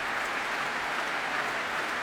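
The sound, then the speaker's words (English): An audience applauds at a Proms classical concert, a dense and steady wash of clapping that holds at an even level throughout. “Well, applause, well, for everybody, really. Everybody applauding each other.”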